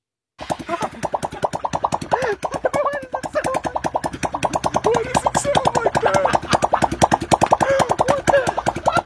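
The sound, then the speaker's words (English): A balloon stretched over a car tailpipe flaps in the exhaust, setting off after a brief silence into a rapid, even, rubbery fluttering buzz with a steady groove that grows slightly louder as it goes. “A couple folks took a balloon, stretched it over the top of the tailpipe of an automobile.”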